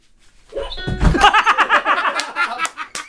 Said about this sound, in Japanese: で、ドスンって 鈍い音もいいですね